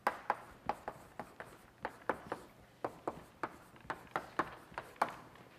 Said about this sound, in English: let me just write it down here